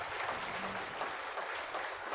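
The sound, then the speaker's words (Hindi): Audience applause at the close of a meditation session: a faint, steady patter of many hands clapping, continuous for the whole stretch. “तो फिर एक बार फिर से तालियां बजाएंगे।”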